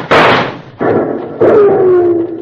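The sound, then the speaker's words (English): Three loud gunshots fired at a rider in a western scene, each a sharp bang with a ringing tail; the third is followed by a whining tone that falls steadily in pitch. “Stop that shooting, lumberhead.”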